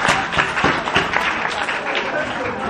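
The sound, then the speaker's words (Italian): Applause from a group: a dense, even patter of many hands clapping at a fairly loud level that holds steady from start to finish. “farei un applauso, tanto oramai ci siamo”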